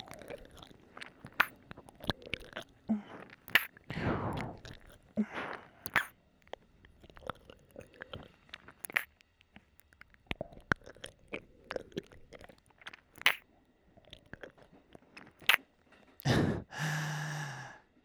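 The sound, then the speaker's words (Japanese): Wet mouth sounds of an ear being licked: many soft smacks, clicks and slurps come at irregular intervals, with a few breathy sighs between them. All of it is fairly faint. “耳も舐めてこうやって”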